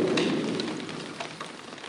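Rain falling during a thunderstorm, a dense, steady hiss with scattered crackling drops that eases slightly in loudness toward the end, with no voices.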